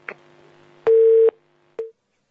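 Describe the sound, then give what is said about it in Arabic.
Telephone busy tone after a call is disconnected: a faint click, then a steady mid-pitched beep of about half a second and a shorter beep. “انقطع الاتصال.”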